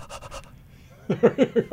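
A dog panting while seated among rows of spectators: a few soft, quick breaths, then a louder run of about five rhythmic pants.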